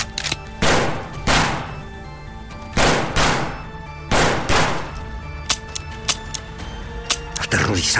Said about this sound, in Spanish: López le descargó toda el arma directamente en la cara de Lucy, destrozando su rostro inocente.